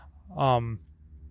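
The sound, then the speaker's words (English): A hornet or wasp buzzing nearby: a brief buzzing drone about half a second long that swells and then fades. “Jesus, there's a, I've been sick of these. Everywhere I go, there's freaking hornets everywhere. Hornets or wasps.”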